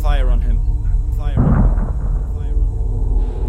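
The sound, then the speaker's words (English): A point-blank shot with high-explosive ammunition: a voice speaks, then a heavy, booming blast bursts in and rumbles away. “Stand down. You will not use lethal force against the landlord. I open fire on him.”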